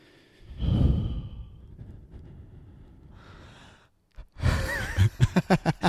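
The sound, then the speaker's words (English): Slow breathing straight into a microphone: soft, drawn-out breaths and sighs, a louder exhale near the start, then a run of short, rapid breathy puffs at the end, with no talking. “let's breathe into the mics, like, slowly”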